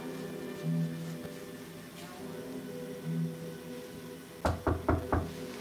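Four quick, sharp knocks on a door during a live Halloween special, sounding after a stretch of quiet background noise.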